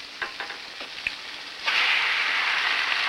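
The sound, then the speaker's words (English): Egg cracked over a hot frying pan on a stove: a few light taps and cracks, then a loud, steady sizzle of frying takes over and holds to the end. “Later, at the stove, he heats a frying pan, then goes to the refrigerator and brings out a bowl of eggs. He cracks one over the pan.”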